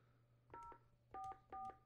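Touch-tone dialing of a number for a raffle info phone line: three steady dual-tone keypress beeps of similar length and loudness, the first alone and the last two closer together, over a low constant hum.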